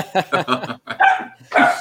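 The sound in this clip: A dog barking, a few sharp, loud barks in quick bursts with short gaps between them.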